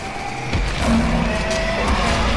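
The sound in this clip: Tires skidding as a four-wheel-drive vehicle loses traction, a steady rough roar with thin squealing tones running over it for the whole stretch.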